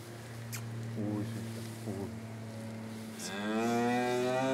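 A cow with a newborn calf moos once, a long, deep, drawn-out call that swells near the end over a steady low hum.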